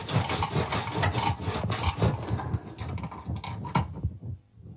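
A knife cuts through hard fennel with rough, repeated scraping and crunching strokes in a busy, uneven rhythm. The strokes stay fairly loud and then fade out near the end.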